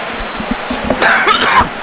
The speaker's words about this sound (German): Da kriege ich schon wieder Husten, da kratzt im Hals.